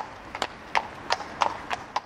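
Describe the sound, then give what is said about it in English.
A horse clip-clops along a Dublin street, with six crisp hoof strikes falling in a steady, even walking rhythm. “And what's the name of your horse? Teddy. Keddie was making a bit of a racket there.”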